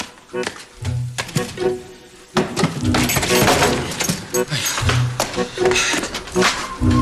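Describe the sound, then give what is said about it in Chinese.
A door is opened in a radio drama, with a metallic jangle like keys, several sharp clicks and knocks, and a couple of low thuds, the sounds coming in irregular clusters. “开门，他去开门。”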